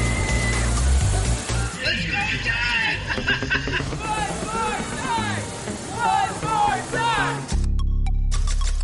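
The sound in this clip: Water splashes and rushes on an amusement park water ride while riders scream and shout over a continuous loud wash of noise, which drops into a deeper rumble near the end.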